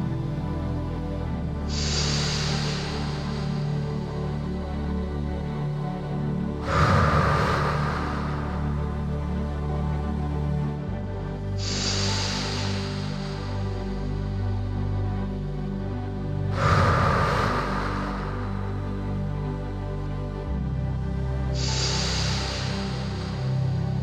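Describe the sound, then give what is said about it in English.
Slow breaths drawn close into a microphone, five long airy swells rising and fading at an unhurried, even pace over a sustained low tone. “I'm going to breathe into the mic, and you can breathe with me.”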